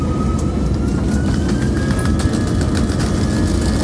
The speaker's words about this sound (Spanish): Si quieres que despeguemos, pues despegamos. Se parte, estoy nervioso, ¿eh? La primera vez que despego una maleta.